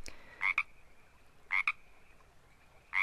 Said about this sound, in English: this is the completely wrong frog for the soundtrack, because this is the Pacific tree frog.